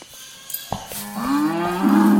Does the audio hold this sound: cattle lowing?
yes